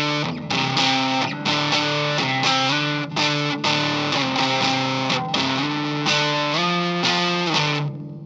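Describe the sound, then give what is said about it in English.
Distorted electric guitar runs through a saturated overdrive distortion pedal without clipping diodes, its level set all the way up, playing a steady series of thick, sustained chords and notes with short breaks between them, loud and alone. “So it's a distortion that gets a more saturated kind of overdrive sound, but without the clipping diodes, so it doesn't get too harsh.”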